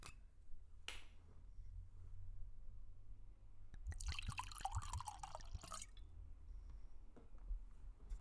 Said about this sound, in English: And that was the sound of us cracking a bottle on the second episode of Amber's Happy Hour.